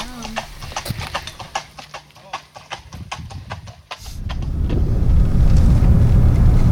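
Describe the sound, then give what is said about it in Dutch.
Clip-clop of hooves as riders on a fox hunt approach along a road. Sharp hoof beats fall in a quick, dense, uneven run and then give way to a louder, steady rumble. “We staan geparkeerd langs de weg en we zien de ruiters aankomen.”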